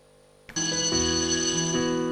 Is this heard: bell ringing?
yes